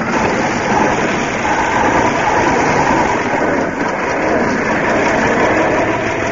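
A car engine runs steadily as the car pulls away, giving a loud, continuous rumble with a broad noisy roar and no talking.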